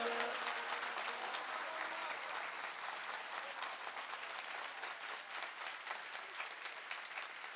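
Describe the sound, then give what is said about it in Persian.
An audience claps at a religious gathering celebrating Reza, a dense and continuous applause that holds at an even, moderate level throughout. “به اندازه ارادت دست بزن.”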